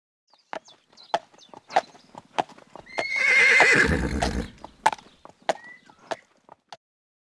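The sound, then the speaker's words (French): Horse hooves clip-clopping in a steady series of sharp knocks, broken midway by a loud, drawn-out neigh, after which the hoofbeats carry on. “I can hear a horse. J'entends un cheval.”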